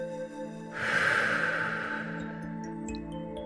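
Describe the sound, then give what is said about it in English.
One deep cleansing breath during a guided outdoor walking meditation, a soft airy rush that swells and then slowly fades over a gentle sustained musical drone. “taking 3 deep cleansing breaths. Inhale through the nose, hold, and exhale through the mouth.”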